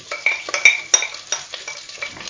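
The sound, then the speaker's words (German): Utensil clinks and scrapes in a cooking pot as red cabbage is added to browned food. Several sharp, irregular metallic taps sit over softer rustling stirring, with no voices. “Ja, jetzt ist genug angebraten. Jetzt kommt der Rotkohl.”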